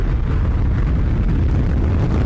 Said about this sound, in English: SpaceX has successfully launched 4 astronauts into space aboard a recycled rocket about 6 a.m. Eastern Friday morning. 2-1-0. Vehicle's pitching downrange.